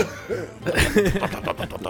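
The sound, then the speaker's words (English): A voice imitates a machine coughing back to life with a few rough, throaty bursts of uneven loudness. “it kicks back to life with a strong cough”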